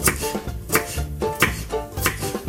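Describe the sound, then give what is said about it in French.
Knife chopping onions into rings, a steady rhythm of firm knocks on a board repeating at regular intervals. “Alors c'est parti, on coupe les oignons en rouelles, l'ail en lamelles, ou alors on le presse”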